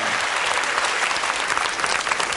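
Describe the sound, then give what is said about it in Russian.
Audience applause at a concert as a band announces its next song: a loud, dense wash of clapping that holds steady for just over two seconds, with no voices over it. “Под ваши аплодисменты.”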